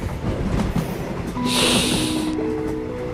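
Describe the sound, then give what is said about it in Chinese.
Train rolling over railway tracks, a continuous rumbling clatter with a louder hissing stretch in the middle, heard alone without talk. “可在那安静中，我总梦见火车从铁轨上驶过的声响。”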